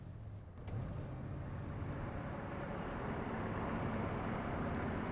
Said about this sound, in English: The four friends jump into their vehicle and drive off